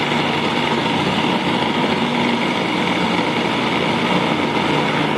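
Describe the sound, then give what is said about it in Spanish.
A food processor blending strawberries gives a loud, steady motor whir with a dense grinding roar that holds constant for the whole clip, with no talking. “Entonces vamos a licuar las fresas, a moler las fresas.”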